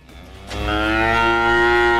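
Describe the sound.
A cow moos in one long, loud, sustained low call. It begins after a brief quiet moment and holds steady to the end, with no one talking.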